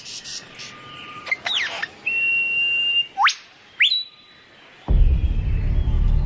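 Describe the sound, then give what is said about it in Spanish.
A lyrebird calls during its courtship dance with a few whistled chirps, a held tone and sharply rising whistles, then a low rumbling noise takes over. “El ave lira continúa practicando su danza del cortejo.”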